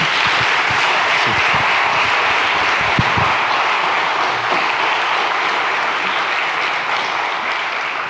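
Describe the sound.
A church audience applauds a speaker, with many hands clapping in a thick, continuous roar that holds steady, then eases slightly toward the end.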